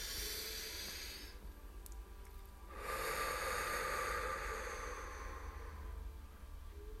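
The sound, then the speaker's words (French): Slow, deep breathing during a guided relaxation exercise: soft airy hisses of air drawn in and pushed out. A quieter breath is followed by a longer, fuller exhale-like rush, with no talking. “Inspirez. Expirez. Sur l'expire, vous relâchez. J'inspire.”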